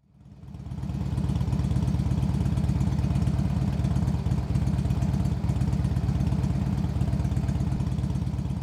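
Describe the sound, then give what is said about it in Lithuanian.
A Harley-Davidson motorcycle engine idles with a loud, low, rhythmic throb that rises over the first second and then runs steadily, with a slight mechanical clatter. “trumpai pamedituokime, klausydami legendinio motociklo Harley Davidson variklio.”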